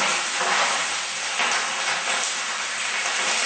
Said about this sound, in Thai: เราจะผัดให้จนแตกมันเลยนะคะ